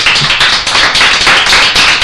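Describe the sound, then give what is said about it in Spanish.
Applause from the audience at a school radio interview, a loud, continuous burst of many hands clapping throughout. “Muy bien, pues muchas gracias, un aplauso porque lo merecéis.”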